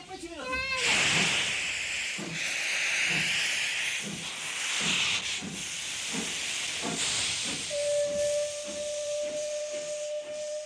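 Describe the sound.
A steam locomotive hisses and whistles, with a loud continuous roar of escaping steam over regular chuffing pulses. A steady, high whistle tone sounds through the last few seconds.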